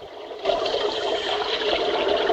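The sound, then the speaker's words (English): Water splashing as a diver climbs over the side of a boat into the water, bursting in suddenly and then settling into a steady rushing, churning wash. “A Japanese diver climbs over the side of the boat and into the water.”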